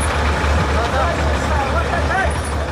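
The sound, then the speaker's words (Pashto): Heavy trucks drive on a muddy, rutted highway between Uruzgan and Kandahar, hauling smaller vehicles through the mud, with a loud, steady engine rumble and road noise that stays constant throughout. “دا د روزګان او کندهار د لوی لارې پر سر غټ موټرونه دي چې د کوچني موټرو سره مرسته کوي ترڅو له لوړو او ژورو یې تیر کړي او له خټو یې راوځي.”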